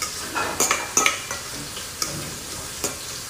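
Frying pan heating on the stove to warm jasmine rice, giving a soft steady sizzle broken by a few light metallic clinks and scrapes of a utensil.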